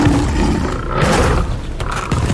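A lion roars in a jungle-adventure audio drama: a loud, rough, continuous roar with a gritty, growling texture that fills the whole clip without a break.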